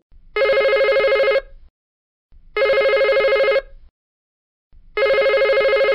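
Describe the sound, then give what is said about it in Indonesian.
A telephone rings three times, each ring a steady, bright electronic trill lasting about a second, separated by evenly spaced silent gaps and heard alone. “jika kalian mendengar dering telepon tiga”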